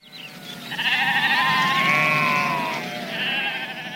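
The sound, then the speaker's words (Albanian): Sheep bleating: a long, wavering bleat followed by a second, shorter one, loud and alone. “Një bari kishte 100 dele.”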